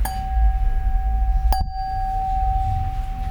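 A lead crystal glass tapped so it rings, giving a clear, sustained high tone with a second sharp tap partway through that briefly renews the ringing over a low rumble.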